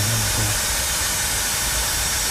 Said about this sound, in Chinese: 这台智能雾化机用手机就可以进行远程操作